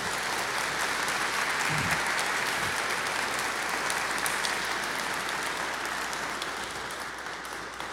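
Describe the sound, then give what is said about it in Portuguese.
Applause from an audience honoring Our Lady at Aparecida, a steady, dense patter of many hands clapping that carries evenly for several seconds, fairly soft and slowly tapering near the end. “Nossa Senhora merece uma salva de palmas, né, gente?”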